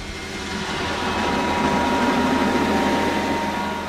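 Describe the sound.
A heating oil delivery truck's pump builds pressure in the hose during a delivery to a single-family house, giving a loud, steady mechanical drone that swells slightly after the first second and then holds.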